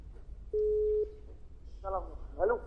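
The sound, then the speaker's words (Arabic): A dropped caller's line tone on a radio call-in phone line: one flat, steady electronic beep lasting about half a second over low hum, followed by brief speech. “للأسف انقطع الاتصال”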